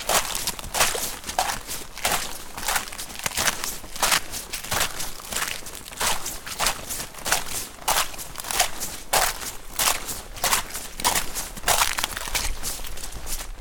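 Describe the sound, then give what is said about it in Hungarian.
A thin film of ice breaks underfoot on a very muddy path. Many crisp crunching steps fall in a steady walking rhythm, moderately quiet and without voices. “ez a jéghártyának a beszakadó hangja, amit hallottatok.”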